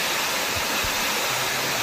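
Water flows through a ravine at Barranco de los Cernícalos in Telde, Gran Canaria, making a continuous, even rushing hiss with no voices.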